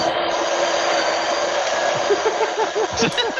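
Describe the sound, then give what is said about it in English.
A coffee grinder runs with a steady, even whirring hum that holds at the same level throughout. “Perfect time for the coffee grind to go.”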